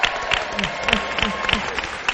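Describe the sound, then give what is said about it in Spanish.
Applause from an audience fills the moment: dense, steady clapping with a few voices mixed in, brief and fairly loud. “Los que damos las gracias y este aplauso por ayudarnos.”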